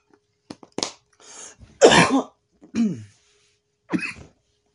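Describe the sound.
A person coughing and clearing their throat: a series of harsh, rasping bursts of uneven length and loudness, separated by short silent pauses.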